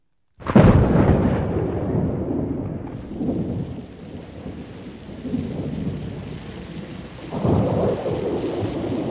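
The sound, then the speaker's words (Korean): A summer thunderstorm with a sudden loud crash of thunder rolling into long rumbles, then a further boom near the end, over a steady roar of heavy, pouring rain. “천둥번개 요란하고 굵은 장대비가 사방을 적셨던 1997년 8월 어느 날”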